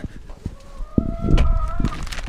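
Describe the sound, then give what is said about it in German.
Hens kept for fresh daily eggs cluck in short bursts, with one drawn-out call in the middle, at a moderate level. “Diese Tiere werden bei uns nicht gegessen, aber sie liefern uns jeden Tag frische Eier.”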